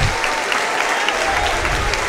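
Church audience applauding during a worship service: dense, steady clapping from many hands, loud and continuous from start to end with no pauses.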